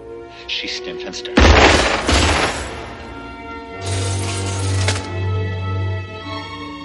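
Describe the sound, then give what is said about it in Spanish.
Gunfire shattering glass panels in a 1988 action film shootout: a sudden loud blast and crashing burst of breaking glass, then a second long spray of shattering, over a low steady drone. “Tira a los cristales. Barren los paneles de cristal que rodean a John.”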